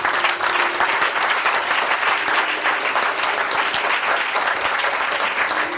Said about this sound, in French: Je voudrais que tu acclames le Seigneur.